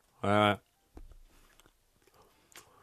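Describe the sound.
Someone chews a large smoked oyster. A short voiced exclamation comes first, followed by faint, soft chewing and biting sounds.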